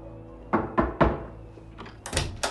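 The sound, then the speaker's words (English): An apartment door opens: three dull thuds in quick succession, a short pause, then a couple of louder clattering clunks. “His daughter opens the door.”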